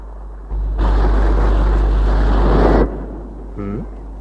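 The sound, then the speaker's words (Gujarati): Sea waves crash against the shore at high tide in a single broad, loud surge of roaring wash that lasts about two seconds and then cuts off sharply. “પાણીના મોજા કેવા ફૂંફાડા મારતા ધસમસતા કિનારા સાથે પછડાય છે. અરે ફુવારાની જેમ કેટલા ઊંચા ઉછળે છે. ફેનિલ ફેનિલ મોજા.”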